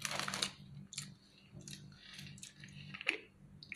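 A crunchy snack being chewed: quiet, crisp crunches and clicks come at irregular intervals, a few bursts spread over several seconds.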